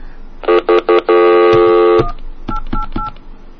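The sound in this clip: Telephone dialing tones sound from a phone keypad. Three short beeps are followed by one long, loud tone, then a few fainter, quicker beeps.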